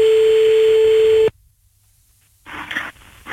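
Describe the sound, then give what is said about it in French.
A telephone ringback tone sounds as a call is placed. One steady, even beep lasts a little over a second, then the line drops to near silence before a burst of noise follows. “Allez on y va, c'est parti, on appelle Johan”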